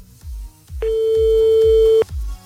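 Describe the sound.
A sustained electronic telephone tone sounds while a number is being called. It is a steady, mid-pitched tone lasting about a second, with a regular low thumping beat underneath throughout.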